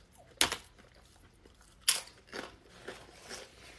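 Chewing on a plant-based tuna sandwich: two sharp crunchy bites followed by softer, uneven chewing sounds, faint and with no talking.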